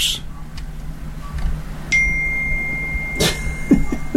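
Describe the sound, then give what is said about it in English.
An electronic device beeps once with a steady, high, thin tone that lasts over a second, surrounded by faint clicks and low background noise. “Sorry about the beeping. I'll put silent mode on.”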